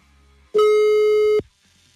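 Telephone busy signal after dialing: one loud, steady mid-pitched beep that lasts under a second and stands alone against a quiet line.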